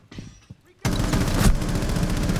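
Rapid automatic gunfire from a shooter video game breaks in abruptly after a quiet moment and keeps going as a dense, loud, continuous burst until the end.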